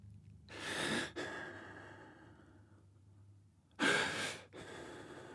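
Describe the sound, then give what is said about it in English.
Heavy breathing: deep, rushing breaths, with two loud bursts of air standing out from quieter breathing between them. “Just breathe. Just breathe.”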